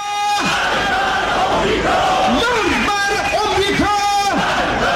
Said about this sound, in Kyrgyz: бийлиги уюштурган жана мамлекеттик телеканалдар түз чагылдырган демонстрациялары учурунда азыркы саясий режимди колдогон, ошол эле учурда бийлик айыптаган чет мамлекеттерден, анын ичинде АКШ'ны жектеген уран чакырыктар айтылып жатты.